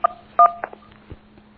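Telephone dialing tones on a caller's phone line as the call drops: a few short, clear electronic beeps in an uneven sequence over a faint steady hum, with no voices.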